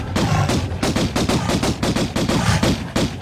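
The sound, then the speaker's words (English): Rapid video-game gunfire as a character shoots a bear: many loud, sharp shots in quick, uneven bursts, with no talk. “That's Lara Croft shooting a bear.”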